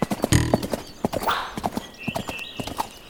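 A knight's warhorse clip-clops with many crisp hoofbeats in an uneven rhythm, and the horse whinnies partway through.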